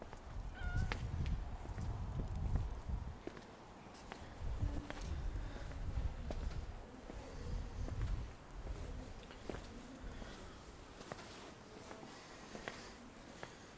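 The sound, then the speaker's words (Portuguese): Faint footsteps of a passer-by tap along a city street, the Rua das Flores, and grow quieter over time as the steps move away amid soft background noise. “Cruzas-te com os passos de alguém, as pegadas que soam e se afastam.”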